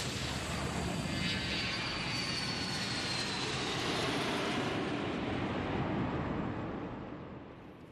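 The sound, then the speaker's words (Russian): An airplane takes off with a broad, steady roar and a thin high whine on top, holding even before fading away near the end. “Самолет взлетает.”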